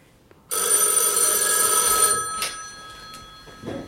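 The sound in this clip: A telephone rings on a hospital ward as the emergency department calls about a bed: one loud, sustained electronic ring starts abruptly, holds for about a second and a half, then cuts off and fades.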